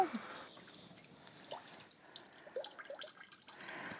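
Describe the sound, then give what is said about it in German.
Faint drips and trickles of water fall from soaked floral foam as it drains. A few soft, irregular drops sound over low background hiss. “Minimal abtropfen lassen.”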